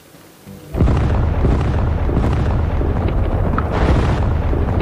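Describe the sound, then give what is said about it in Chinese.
Artillery bombardment sound effect for a dramatized 1948 assault on Jinzhou city. After a brief quieter lead-in, a loud, dense roar of booming blasts erupts and rumbles on continuously, heavy in the low end, with no voices. “东北野战军对锦州城发起了总攻，在猛烈炮击下，安守仁的防区被炸成一片火海”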